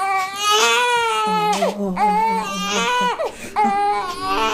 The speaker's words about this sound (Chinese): 干嘛哭成这样？你也不让哄你好吗？